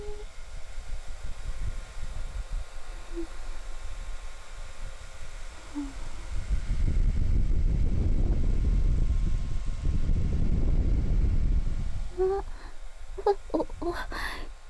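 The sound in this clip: Hair dryer drying a pet's fur, a steady breathy whoosh of blown air that swells louder through the middle stretch and then eases off again toward the end.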